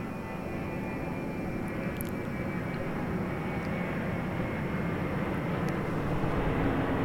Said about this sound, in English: You could just take in the sound of the jet airplane.